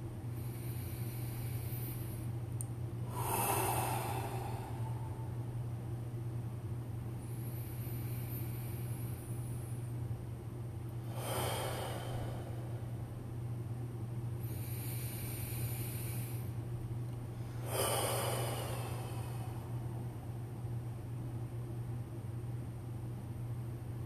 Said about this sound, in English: Let's take three deep, sweeping breaths.